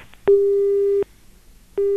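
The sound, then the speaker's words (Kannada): Telephone busy tone after a call disconnects: a steady mid-pitched beep sounding in long pulses with short silences between, loud and clean with no voices. “ಕರೆ ಕಡಿತವಾಗಿದೆ.”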